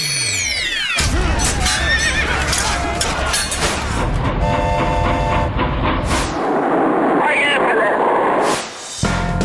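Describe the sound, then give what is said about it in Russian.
Loud horse neighing with clopping hooves: several shrill whinnies that rise and fall over a dense, busy background, with people talking in the mix. “Ты как будто с хлыстом такой, а впереди кони.”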